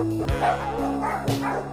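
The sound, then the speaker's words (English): Dogs bark in a few short, sharp bursts, with yips between them. “Yeah, all these dogs. These dogs are shit.”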